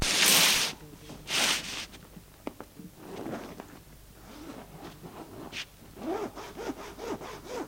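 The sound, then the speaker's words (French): A clothing zipper is slid open in a few harsh rasping strokes, the loudest near the start, followed by softer rubbing and rustling. “Voilà, j'ai fait glisser la fermeture à glissière.”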